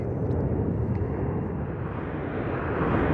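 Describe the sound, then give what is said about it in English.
Airplanes flying overhead above an open coastal area with a parking lot and windmills produce a steady, loud, low rumbling roar that continues without a break for the whole stretch. No voices are heard over it. “despite airplanes flying overhead”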